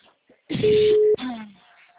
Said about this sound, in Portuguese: eu vou fazer a ligação, tá?